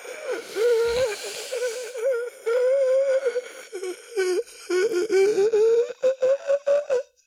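A long, deep breath in, drawn out with a voiced, wheezing quality. The breath holds a wavering, groan-like tone that rises and falls for several seconds, then breaks into choppier gasps toward the end.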